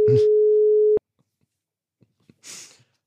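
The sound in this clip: A steady telephone tone, as when placing a call, holds loud for about a second and then cuts off abruptly. A few faint clicks and a brief breathy hiss follow.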